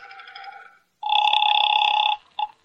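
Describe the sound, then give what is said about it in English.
A telephone rings at a police precinct: first a softer ring, then a long, loud, steady ringing tone, and finally a brief clipped blip. “Well, there's the phone.”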